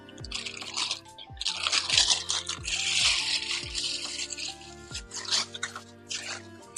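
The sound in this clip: A package wrapper is torn open with a sustained crackly, crinkling rustle that runs for several seconds, fairly loud and busy, with bursts of sharper crunches throughout and a soft steady tone lingering underneath.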